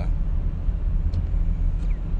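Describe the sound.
A car driving through light early-January snow, heard as a steady low engine and road rumble that holds constant, with a couple of faint, brief higher tones above it.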